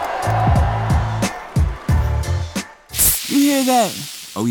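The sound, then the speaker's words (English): A can of Mountain Dew soda gives a short, sharp hissing fizz between stretches of a man's talk. “that's the fresh sounds of Mountain Dew.”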